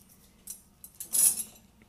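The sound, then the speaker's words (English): Cutlery clinks as a dishwasher is emptied, with a sharp knife among the pieces; a few light metallic clinks and taps sound faintly, followed by a brighter, denser cluster of clatter near the end. “I think this is the last sharp knife. Dang, I'm almost done. Empty my dishwasher.”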